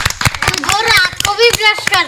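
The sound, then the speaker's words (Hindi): Loud hand clapping in a brisk, regular run of sharp claps, with a child's voice speaking over them. “भाई वाह, बजाओ जोरदार ताली।”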